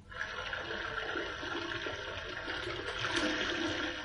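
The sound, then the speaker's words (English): Running water splashes as hands covered in liniment are washed. A steady, rushing stream flows without a break, heard alone with no voices. “I'd better wash first. My hands are covered in it.”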